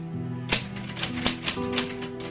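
Typing in a bedroom comes through as a handful of sharp, irregular key strikes over a steady low tonal drone, with no voices.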